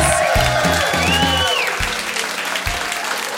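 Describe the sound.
A live studio audience at a music session gives a round of applause, with steady, loud clapping and cheers over music that sounds beneath it.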